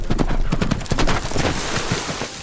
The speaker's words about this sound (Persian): بیارش اینجا. چه اسب با کلاسی.